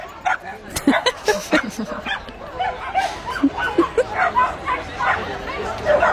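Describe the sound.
Small dogs bark and yip while walking along Strandvägen, a city street. Many short, high yaps come in uneven bursts of modest volume, with people chattering in the background.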